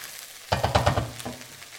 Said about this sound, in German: Dann heben wir das alles wieder schön unter, lassen das nochmal ein bisschen anrösten.